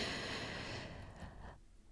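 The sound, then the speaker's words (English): A deep breath drawn in through the nose during a guided breathing exercise, a steady airy hiss that lasts about one and a half seconds and then cuts off into near silence. “please go ahead and take a deep breath to the count of four, filling up your lungs and your stomach”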